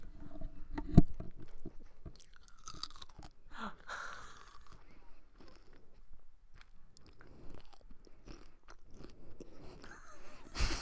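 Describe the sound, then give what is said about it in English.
Chewing and biting close to the microphone, with many crunchy, wet mouth sounds at an uneven pace, mostly quiet with one sharper crunch early on. “so you're going to hear a lot of chewing, a lot of ASMR”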